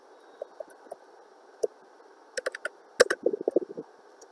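Computer keyboard typing as a query is entered: scattered single key clicks at first, then a quicker irregular run of keystrokes, all fairly quiet and crisp.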